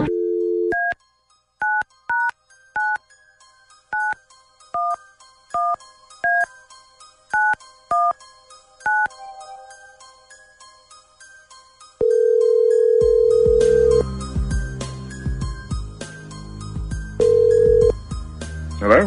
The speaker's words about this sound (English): Okay, stand by. Dialing at random.